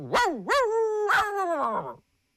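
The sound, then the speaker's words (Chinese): Dogs bark at night in a village, both stray dogs and household dogs. There are a few loud, drawn-out yelping barks in close succession that rise and fall in pitch, with no other sound. “还跑出来很多狗，那有野狗啊，也有水家庄人家老百姓家的狗啊。”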